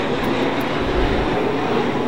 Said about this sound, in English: And just passing us now is the shuttle training aircraft doing a test flyby. Let's listen to it.